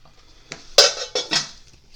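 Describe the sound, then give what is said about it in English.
Folded paper question notes rattle as they are shaken in a pot, a few quick bursts of light clattering and rustling with short pauses between them. “it is time for you to dip your hand into the Pompey Politics Podcast's Pot of Pondering. Shaking sounds. Good shaking sounds.”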